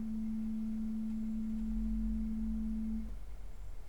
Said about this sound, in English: So the whole string would sound like this.